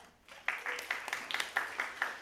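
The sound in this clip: Applause from a church audience welcoming a scripture reader to the front during a morning service: steady, fairly faint clapping that starts after a brief quiet moment and continues with small surges.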